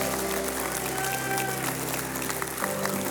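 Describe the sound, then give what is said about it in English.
A church audience applauds to welcome a speaker onto the stage, a dense, steady clapping that holds at an even level throughout, shifting slightly near the end. “Will you put your hands together and will you welcome Evelyn Oliver to the stage?”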